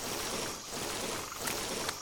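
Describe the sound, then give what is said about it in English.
Water flows in a stream in a video game, a steady, faint rushing wash with a soft, even hiss and no distinct splashes or voices. “Stream. I hear it.”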